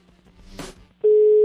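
A telephone line tone sounds during a call as it rings through. After a brief rustle, a loud, steady single-pitched tone begins abruptly and holds unbroken to the end.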